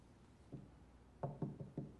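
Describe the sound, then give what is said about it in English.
Knocking on a closed bedroom door: one soft, dull knock, then a quick run of four faint raps in a loose rhythm, all quiet against a low background hiss. “She stops at a closed bedroom door, starts to turn the knob, then knocks.”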